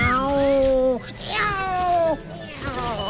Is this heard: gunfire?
no